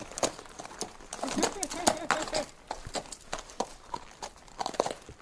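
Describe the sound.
Hooves of a horse walking with a rider on its back, many uneven clip-clop footfalls with rustling and creaking, while a rider's voice speaks briefly over them.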